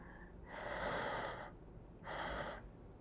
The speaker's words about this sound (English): Let's just take some deep breaths.